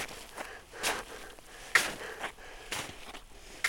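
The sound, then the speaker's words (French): Footsteps crunch through snow on a mountain summit: a few soft, gritty steps in an unhurried walking rhythm, fairly quiet and heard alone without talk. “Je marche dans la neige.”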